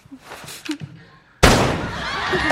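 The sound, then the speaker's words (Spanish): A sharp pistol shot bursts out abruptly after a stretch of voices, in a staged drama scene using a fake gun; the crack is followed by loud, dense noise that carries on to the end. “Disparó a Bomber, que cae al suelo.”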